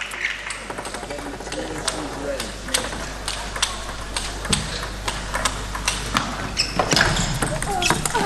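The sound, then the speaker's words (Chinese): Table tennis ball clicks rapidly against paddle and table during a serve and forehand attack in a women's team match between China's Sun Yingsha and a veteran Romanian player. Many quick, bright ticks sound under continuous excited commentary. “又是一个发球抢攻，正手的爆冲”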